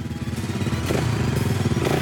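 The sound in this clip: An off-road style motorbike engine running, a loud, rough, throaty putter that swells as it revs, with no talk.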